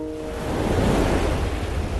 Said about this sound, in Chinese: 起风了，赶紧撤。